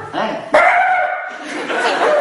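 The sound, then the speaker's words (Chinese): Someone on stage in a Chinese crosstalk comedy routine vocally imitates a dog barking with a few short, yappy barks, mixed with chuckling and talk. “你先等一会儿啊，您前面是狗是吧？”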